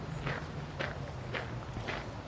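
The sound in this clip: Footsteps of someone walking outdoors toward a monument on the Augusta-Anlage, four faint, evenly spaced steps over a constant background hiss and low hum.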